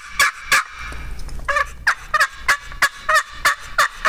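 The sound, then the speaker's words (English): Turkey yelping made on a box call, a series of raspy, high-pitched yelps in a steady, fairly quick rhythm, loud and alone over a low background rumble. “on a box call, you can take your offhand here and cut the vibration on that soundboard. You can go from yelping.”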